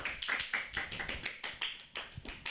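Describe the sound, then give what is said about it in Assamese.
Scattered clapping from a quiz audience applauding the competing teams, many sharp, uneven claps in a loose rhythm, with no voices over them. “প্ৰতিটো দলকে নিজৰ বাবে এজাউৰি হাত চাপৰি বজাবলৈ জনোৱা হ'ল।”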